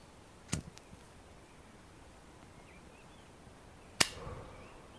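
A lighter flicked to light a cigarette gives two brief sharp clicks a few seconds apart, the second one louder, over a quiet background.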